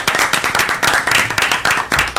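Hands clapping in applause at a religious study quiz gathering, a dense, steady run of many quick claps throughout, loud and evenly rhythmic.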